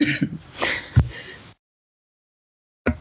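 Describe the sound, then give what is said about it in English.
Choking and throat clearing: a few harsh, rasping coughs and throat clears in quick succession, one sharper and louder burst among them, then silence before a brief final burst. “Excuse me while I choke.”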